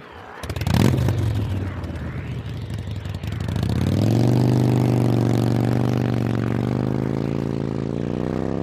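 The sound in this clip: Motorcycle engines with sidecars start with a sharp burst, idle roughly, then rev up into a loud, steady drone as they set off in pursuit.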